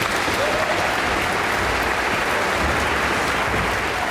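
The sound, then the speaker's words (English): An orchestra audience applauds as the principal double bass of the Philadelphia Orchestra comes on stage, a dense, loud, steady wash of clapping that holds throughout with no break. “his usual stand partner, principal Joseph Conyers, is coming on stage to cheers from the audience.”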